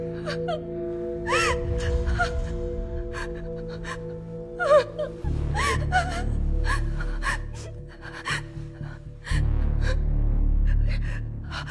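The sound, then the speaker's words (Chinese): Someone gasps for breath again and again, panicked and out of breath, the sharp uneven inhalations mixed with whimpering sounds over a steady low rumble. “正好，正好，我我我喘不过气来，我我。”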